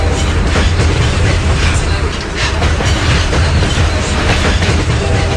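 A train running on its rails: a loud, continuous rumble with a steady rhythmic clatter from start to end, easing briefly near the middle.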